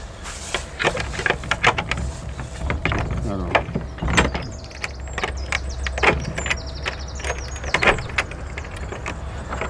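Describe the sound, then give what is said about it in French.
An old Gascon door lock being unlocked at Arnaudin's house, a busy series of metallic clunks, rattles and scrapes with a few high creaks, uneven in rhythm and fairly loud throughout. “Une vraie serrure gasconne, il faut ouvrir à l'envers.”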